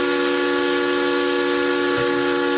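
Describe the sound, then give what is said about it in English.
Steamboat whistle: a loud, sustained, chord-like blast that holds steady at one pitch for the whole stretch, with a breathy hiss of steam beneath it and no talk. “The sound of steamboat whistles was common,”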